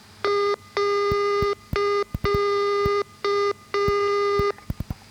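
Morse code tones: three short dot beeps alternate with three longer dash beeps, each dash about three times the length of a dot. All six are loud, steady-pitched electronic beeps separated by brief silences.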